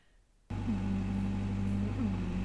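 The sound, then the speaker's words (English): A bulldozer engine kicks in after half a second of near silence, then holds a loud, steady low drone with strong rumbling harmonics and slight shifts in pitch as it runs. “tell our audience what it's like to be riding in this bulldozer. Let's kick it into gear.”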